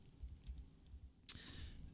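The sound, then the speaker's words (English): Keyboard typing: a few faint, scattered key clicks, then one sharper, louder strike near the end, with no voices. “I'm just going to type in UK.”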